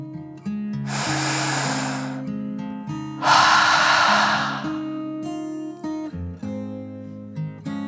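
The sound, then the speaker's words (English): A deep breath in and then out, two long airy whooshes separated by a short pause, over soft sustained musical tones in a children's meditation. “Each girl took a deep dragon breath, in and out.”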